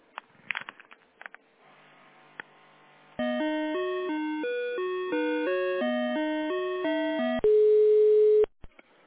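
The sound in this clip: Telephone line tones while a call is transferred: a few faint clicks, then a loud run of stepped electronic beeps forming a simple repeating melody, ending in one long steady tone.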